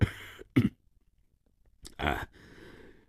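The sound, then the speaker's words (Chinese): A man coughs, a harsh throaty burst among a few short rough throat sounds, with no talk around it. “过了一会儿，洛金的父亲咳嗽了一声。”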